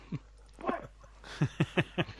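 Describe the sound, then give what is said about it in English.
Dogs howl and yelp indoors during a thunderstorm, giving a few scattered whimpering cries and then a run of five short, sharp, evenly spaced yelps that grow slightly louder. No thunder stands out. “Hold on, my dogs are howling in a thunderstorm.”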